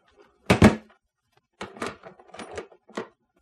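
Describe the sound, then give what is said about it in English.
A door lock clicks shut on a small room where someone is being confined: a sharp double click, then a run of quieter mechanical clacks and rattles, with no voices. “The click of the lock was an unpleasant sound somehow.”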